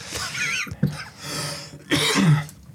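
A man coughs and clears his throat after choking on something, with a few harsh, rasping bursts separated by short pauses.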